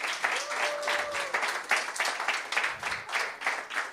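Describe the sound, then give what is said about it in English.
An audience claps hands for the Lord during a Bride Ministries healing service; many hands beat in uneven, pulsing waves of moderate loudness, swelling and easing several times. “Now, y'all could give the Lord a hand clap”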